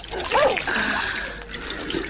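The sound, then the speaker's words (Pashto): Water is poured into a jug in a brief, steady splashing stream that gurgles and trickles, fairly loud and with no other sounds. “صبر، چې لوټکه کې اوبه واچوم.”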